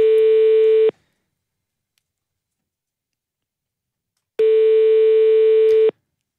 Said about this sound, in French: On rappelle vite fait. J'ai l'impression qu'on arrive à chaque fois vers le même répondeur.